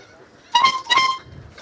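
Boat horn honked out as a short tune: two bright, harmonic honks in quick succession, the second slightly longer, standing alone against a quiet background.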